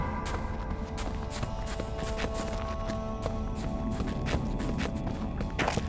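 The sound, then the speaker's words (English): Footsteps jogging down a damp stone hallway make many quick, light, steady steps, fairly faint throughout. “Davria walked briskly, keeping Una within sight as she followed her hasty jog down the damp stone hallway.”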